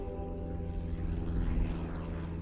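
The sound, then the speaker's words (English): A small propeller plane flies in toward a Texas county airport, its engine giving a steady, low, buzzing drone that stays even and fairly loud throughout. “well-to-do tourists fly their tiny prop planes into the Gillespie County Airport.”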